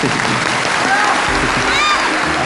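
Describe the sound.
Dense, steady audience applause at a televised quiz competition that fills the whole stretch without a pause, with a voice faintly audible above the clapping.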